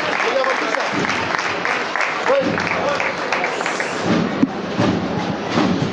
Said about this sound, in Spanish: Y el aplauso de la gente que está aquí congregada.